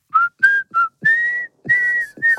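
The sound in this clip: Someone whistles a short tune of six clear, high-pitched notes separated by brief pauses. The later notes are held a little longer, and there are faint breath sounds between them.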